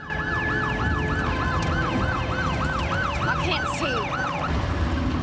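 Police car siren from a squad car chasing a vehicle turning off onto a gravel road: many rapid, evenly repeating up-and-down wailing sweeps held loud throughout, over a steady rumble of engine and road noise, with no voices.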